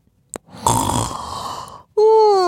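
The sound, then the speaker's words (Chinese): A person imitates a piglet's yawn. After a brief click, a long, breathy exhale lasts about a second, and then a loud voiced tone starts. “小猪打了个哈欠，小猪睡觉了。”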